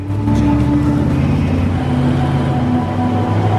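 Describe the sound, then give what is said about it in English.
Army vehicles trundling along a street at night, heard as a loud, continuous low engine rumble with a droning tonal hum that holds steady without a break. “Night has fallen, and Ahmad and Jaffa make their way along a street, army vehicles trundling by.”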